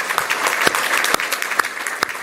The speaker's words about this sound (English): Please applaud.